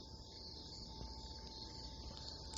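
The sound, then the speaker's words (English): Crickets chirp outside a porch at night in a faint, continuous high trill, with a steady low background hum beneath and no voices. “Here from Mayberry's View, sitting on the porch. You can hear the crickets maybe in the background. Wind chimes.”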